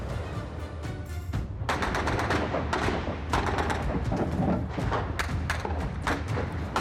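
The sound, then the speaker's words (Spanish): Gunfire as soldiers open fire on protesters in Tiananmen Square, a dense, rapid barrage of many sharp shots and thuds, steady and loud throughout with no pause. “La plaza se llena de tanques y soldados que abren fuego contra los manifestantes.”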